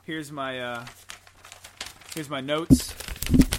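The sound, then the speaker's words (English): Paper notes being ripped up and crumpled, a loud dry crinkling and rustling burst that follows a stretch of people talking and laughing. “By the way, everyone, he's ripping up my notes. Okay, so I'm throwing it away.”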